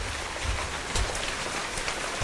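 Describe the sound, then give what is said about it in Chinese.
Heavy rain and hail pelt an oil drilling rig site where crews are handling drill pipe. A steady, fairly faint hiss of downpour carries a few sharper impacts scattered through it. “大雨侵吞的钢铁1205钻井队的施工现场，冰雹威胁着井架甩钻杆施工作业的队员们。”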